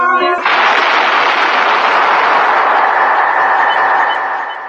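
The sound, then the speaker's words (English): A gunshot in a sewer: a sharp report at the start, then a loud, sustained roar of noise that holds steady for several seconds and eases off slightly at the end. “That was the shot that killed Harry Lime. He died in a sewer beneath Vienna.”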